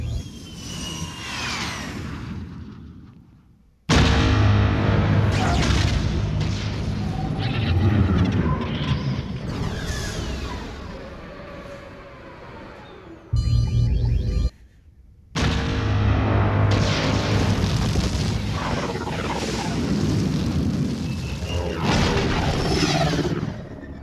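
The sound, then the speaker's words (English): Seismic charge explosions from a science fiction film: loud, deep booming blasts with long ringing, metallic resonance. A few separate bursts are split by brief near-silent gaps. “Seismic charges.”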